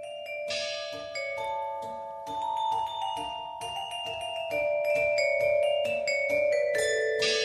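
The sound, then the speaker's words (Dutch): Tango and dance music played by music robots: a rhythmic run of bright, struck and plucked notes over a sustained low tone, with a busy mechanical pulse that builds slightly louder toward the end. “Hij heeft een mooie cd gemaakt met tango- en dansmuziek, uitgevoerd door muziekrobots. Die klinkt zo.”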